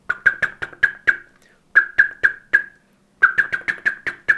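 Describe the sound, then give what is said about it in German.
Mild ground-predator alarm call of a bird: sharp, clipped chirping notes repeated rapidly in three bursts separated by brief pauses, fairly loud and heard alone without talk. “Also das ist so der Bodenfeind-Alarmruf in milder Form.”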